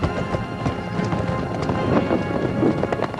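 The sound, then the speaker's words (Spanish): Hooves of many horses galloping as mounted troops ride out of a camp, a dense and continuous pounding of hoofbeats that carries through without a break. “¡Cabalgad! ¡Galopad hasta Gondor! Las tropas de Rohan abandonan el campamento.”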